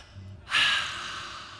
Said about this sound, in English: We're gonna just take a deep breath and be in this space